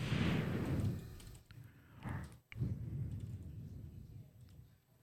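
Keyboard typing, with a rapid clatter of keystrokes scattered through a noisy background and a couple of louder, sharper taps near the middle.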